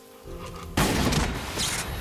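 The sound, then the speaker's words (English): A gunshot bursts in abruptly, loud and sharp, and is followed by a sustained noisy roar that slowly fades. “As Hancock is shot again, Mary's body jerks again.”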